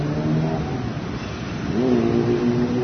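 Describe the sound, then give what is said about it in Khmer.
Cars and motorbikes roar along a busy Phnom Penh street in late-morning traffic. A continuous engine rumble is joined by one engine revving, its pitch rising in the second half, with no voices. “នៅតាមដងវិថីនានាក្នុងរាជធានីភ្នំពេញសំឡេងឡានម៉ូតូលាន់ស្នូទ្រហឹងមិនដាច់ប្រជែងគ្នាសម្ដៅឈ្មោះទៅគោលដៅរៀងៗខ្លួន”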